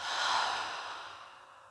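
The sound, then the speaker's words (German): A slow exhale through an open mouth during a guided breathing exercise: one soft, airy rush of breath that peaks early and then fades gradually over nearly two seconds. “nimm einen tiefen Einatemzug und dann halte hier kurz den Atemzug und dann ganz langsam über den geöffneten Mund”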